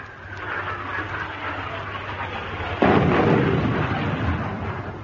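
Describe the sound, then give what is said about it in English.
An artillery shell explodes during the shelling of an island. A steady low rumble gives way to one sudden loud blast, followed by a long, rough, roaring decay. “if we'd still been on that island, they'd have started shelling just about now.”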